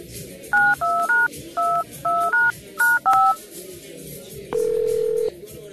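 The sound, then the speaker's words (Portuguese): Telephone keypad dialing tones as a call is placed: a quick run of short two-tone beeps in small groups, followed by one longer steady tone, clear over a low background hum. “Tá, peraí, eu vou te ligar. Vou te ligar normal, peraí.”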